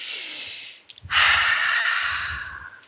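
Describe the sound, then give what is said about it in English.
Deep breathing: one long airy inhale, a brief pause, then a longer, louder exhale that slowly fades, with a soft low rumble under the outbreath. “So, how about taking a few deep breaths?”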